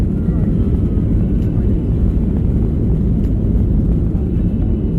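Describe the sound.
An airplane's engines roar as it accelerates down the runway for takeoff, a loud, steady, low rumble that continues without a break throughout.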